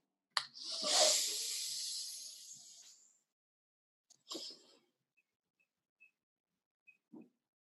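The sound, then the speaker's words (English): A deep breath taken during a guided breathing exercise: a long, airy hiss lasting several seconds, then after a pause a shorter breath, followed by faint scattered ticks and a soft, low burst near the end. “Let's take an inhale and hold it at the top and then exhale.”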